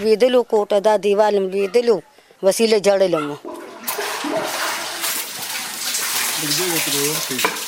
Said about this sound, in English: She salvages what she can and tries to keep it clean, washing the floors that remain.